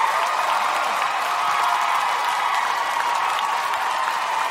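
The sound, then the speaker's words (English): A studio audience in Boston applauds to welcome a guest: dense, steady clapping that stays loud and even throughout. “Big welcome for Cecile. Really making Sam feel like shit. I go on hardball. I don't get that type of applause.”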